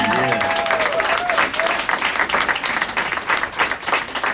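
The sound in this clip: Audience applause for a community activist at an activism gathering: loud, dense clapping that carries on throughout, with a voice speaking over the first part before the clapping continues alone.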